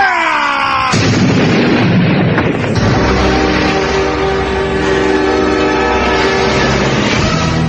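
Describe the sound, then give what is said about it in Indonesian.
Explosion effect from two fighters' palms clashing in an audio drama, a loud continuous roaring blast with sharp surges near the start, rumbling lows and sustained ringing tones throughout. “Ledakan keras terdengar dengan hebat akibat benturan tangan dari kedua tokoh ini.”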